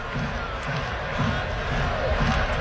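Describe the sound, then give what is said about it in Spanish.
A baseball stadium crowd roars and stirs in a steady wash of noise, swelling slightly louder toward the end, with no single cheer standing out. “El público se anima.”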